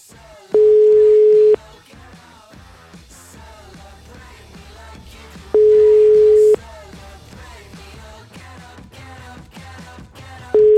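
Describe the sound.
Ringback tone of a dialled telephone number that goes unanswered, heard as three evenly spaced one-second beeps about five seconds apart, the last one cut short, over a busy, continuous background din.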